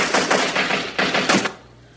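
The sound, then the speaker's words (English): Rapid gunfire in two dense, rattling bursts: a long volley, a brief gap, then a shorter burst that stops abruptly and leaves near silence. “Mr. Rogers would not be all right with all that shooting”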